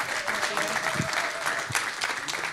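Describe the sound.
A church audience at Harbor City Church applauds a speaker, a steady, dense wash of clapping hands that stays fairly loud throughout.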